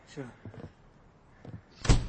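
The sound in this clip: A door is closed gently, giving one short, fairly loud thump near the end after a few moments of faint speech.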